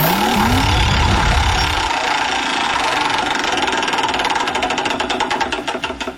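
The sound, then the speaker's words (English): A prize wheel spins in a ticket giveaway game, its clicker rattling off rapid ticks that gradually slow and spread apart toward the end. A low whooshing rumble fills the first couple of seconds. “All right, let's spin the wheel and see if we can win you some King Richard's Fair tickets.”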